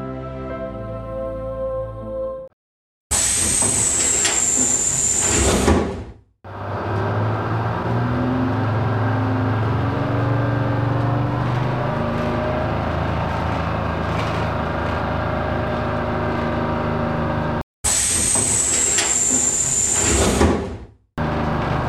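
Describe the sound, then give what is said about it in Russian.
A city bus passing along Chudnovsky Street in Saint Petersburg late at night: loud bursts of hiss with a thin high whine at the start and end, around a long, steady engine rumble in between. “Однажды, в городе Санкт-Петербург, на улице Чудновского в 23:30 проезжал автобус.”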